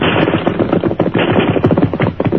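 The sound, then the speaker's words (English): Loud rifle fire crackles in a dense, rapid stream of overlapping shots, keeping up an unbroken volley throughout. “Rifle fire”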